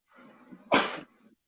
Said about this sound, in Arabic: عفوا شيخنا، الحمد لله رب العالمين، رحمك الله، يهديكم ويصلحكم.